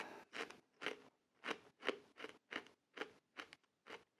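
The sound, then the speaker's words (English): Space heater popping: many short, sharp pops in a fairly steady rhythm, faint and otherwise quiet. “that popping I'm hearing is the space heater going off”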